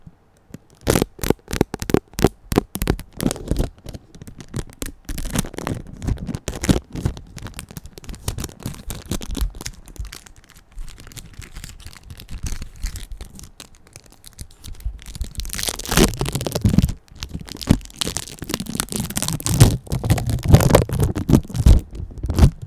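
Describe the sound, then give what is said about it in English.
Cheese packaging, American cheese, being opened: a long run of crackly crinkling and tearing with many sharp rustles, denser and louder toward the end, with no talking. “Opening it up. That's the packaging. Any ASMR fans out there?”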